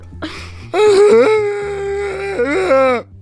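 A person imitates someone crying with a drawn-out, whimpering wail whose pitch quivers and slides. A brief break follows, then a second rising sob, all over a quiet, repetitive music bed.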